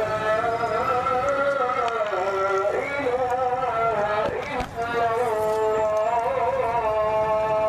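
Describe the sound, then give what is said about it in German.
A muezzin's call to afternoon prayer rises over the Jemaa el-Fna square in Marrakesh as a long, sustained, melodic chant with wavering held notes, carried above steady background noise. “Der Muezzin ruft zum Nachmittagsgebet.”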